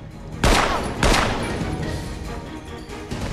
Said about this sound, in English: Dina is forcibly led away into a graffiti-daubed side room and shot.